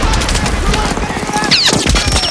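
Heavy gunfire on a beach in a war drama: dense, overlapping machine-gun bursts and shots crackle loudly without pause, with a sharp sweeping whine cutting through midway.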